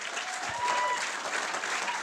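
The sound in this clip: An audience applauds to welcome a film director on stage at a theater, a dense, steady clapping that holds at an even level throughout.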